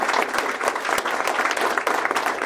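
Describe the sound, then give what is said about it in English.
Applause from an audience honoring volunteers at a chamber of commerce gathering in American Fork, dense and steady clapping that carries evenly from start to finish. “So let's give them a round of applause.”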